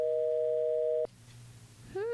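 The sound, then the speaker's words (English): A telephone dial tone after a dropped phone call: a steady two-pitched tone holds for about a second, then cuts off with a click, leaving faint quiet line noise. “Something must have gone awry with our phone connection”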